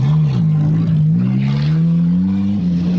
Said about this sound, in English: Mike drives off, then jumps out. The Land Rover rolls off a cliff, then crashes in a ball of flame.